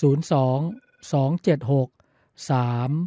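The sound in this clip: A telephone rings with an incoming call to a health-advice phone-in line, sounding in several loud, tonal bursts separated by short gaps.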